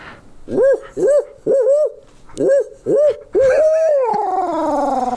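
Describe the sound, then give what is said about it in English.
A person imitates an owl's hooting call with the voice. Five short, loud, arched hoots are followed by a sixth, longer drawn-out hoot that slides downward in pitch. “But never before have we had the world's greatest owl hooting champion of all time. Are we going to get a taste of this call”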